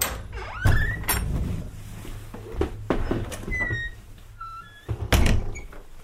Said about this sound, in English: You'll just hear the latch click, and then I will be silent.